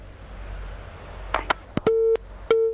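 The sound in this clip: Telephone busy tone on a call-in phone line after the caller's line drops: a few sharp clicks, then two loud, steady tone beats separated by a short gap.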